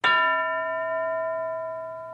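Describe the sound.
School bell: a single bright metallic ding with a sharp strike, then a ringing, clear tone that fades slowly across about two seconds, heard alone.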